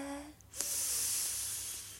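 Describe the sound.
During a relaxation breathing exercise, a person breathes in slowly through the nose, a soft and steady airy hiss that lasts well over a second, with no talk.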